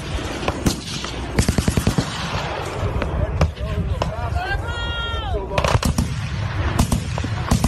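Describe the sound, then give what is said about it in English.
Military gunfire from the Iranian forces opening up on a boomerang-shaped craft: many loud, irregular shots, including a rapid burst, with brief shouts or voices mixed among them. “this is the actual gunfire of the Iranian military opening fire on this UFO.”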